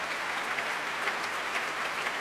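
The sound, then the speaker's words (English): Young members of a youth orchestra applaud their conductor returning to the stage after a concert, a steady, even wash of dense clapping held at a moderate, fairly faint level throughout. “the young members of the Gustav Mahler Youth Orchestra applauding Sir Colin as he comes back on stage, encouraging first the leader to stand and then the rest of the orchestra.”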